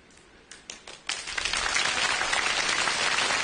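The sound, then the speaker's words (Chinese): Audience applause during a stage show rehearsal, opening with a few isolated claps that quickly swell into dense, steady clapping and hold evenly to the end. “都鼓掌了”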